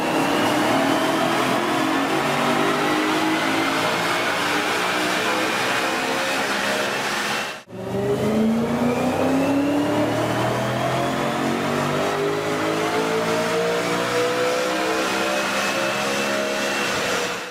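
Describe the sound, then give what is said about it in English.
A turbocharged car engine revs hard with a loud, rising whine whose pitch climbs steadily. After a brief drop about midway, the engine starts lower and climbs again through a second long pull. No voices are heard. “So this is the same vehicle when you add a turbocharger to it, and see if you can hear the difference.”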